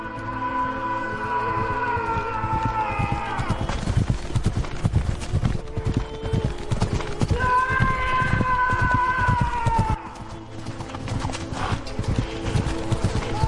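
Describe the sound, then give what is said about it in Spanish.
A horse gallops in a sword charge against mercenaries, its rapid rhythmic hoofbeats pounding steadily over sustained tones. “Ramón obedece. César desenvaina. Galopa contra los mercenarios.”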